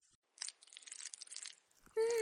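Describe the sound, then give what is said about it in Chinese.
Surgical scissors snipping scrotal skin during an animal castration, a quick run of crisp, crunchy cuts, followed at the end by a voice. “手术刀划出切口，换剪刀，开始剪蛋皮，然后慢慢开始取第二只。”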